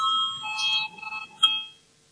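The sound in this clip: An electronic voting bell rings in a parliament chamber: a steady, bright, sustained tone with strong overtones, shifting slightly partway through before fading out near the end, with no talk.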